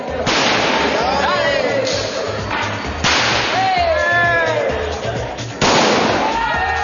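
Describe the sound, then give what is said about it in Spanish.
Gunpowder packets explode with sharp cracks when thrown tejo discs hit them. A few loud, abrupt bangs stand out against voices and a steady rhythmic beat underneath. “Un jugador lanza uno de los discos. Pero incluso este deporte está dominado por la influencia española. Los españoles decidieron animarlo poniendo aquí un poco de pólvora que hay que intentar golpear para que explote.”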